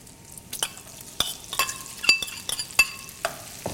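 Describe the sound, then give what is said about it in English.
Onions frying with light-browned bacon in a pan for baked beans, a steady low sizzle broken by several sharp scraping stirs in an irregular rhythm, with no voices. “Our bacon's light brown, it's perfect time to add the onions.”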